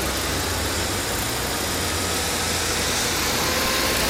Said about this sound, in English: These field recordings were made while riding bikes through the center of The Hague on the night of September 17th, 2002.